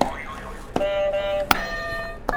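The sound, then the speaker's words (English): Game buzzers being struck: three sharp hits, each setting off a sustained electronic tone, with the tones running into one another. “Do you want to hit a buzzer to start us off? Do you want to hit the buzzers real quick? Hit these buzzers again?”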